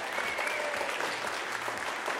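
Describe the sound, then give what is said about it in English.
Audience applause at an event, a dense, continuous patter of many hands clapping at a fairly even, moderate level. “Give them a big applause.”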